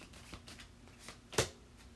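A tarot card is drawn from the deck: one brief papery swish stands out after a few faint soft taps and rustles.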